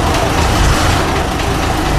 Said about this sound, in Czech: Je to historický auto. Všechno originál budíky. Dali jsme to dokupy, takže to jezdí. Jestli chcete, tak to ještě zkusím.